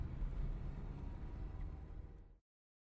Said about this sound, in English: You'd better put your foot down if we want to get there for sundown. Step on the gas, Rich. Easy. I love driving automatics.